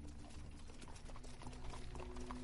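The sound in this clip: Hooves clip-clop as a horse-drawn carriage in a merchant caravan sets off, a faint, continuous patter of many hoofbeats.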